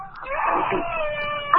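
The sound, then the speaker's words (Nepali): A small girl crying, a wavering, high-pitched wail with sustained tonal sobbing that rises and falls, fairly loud throughout. “सानो नानी रुनु भएको जस्तो लाग्यो है।”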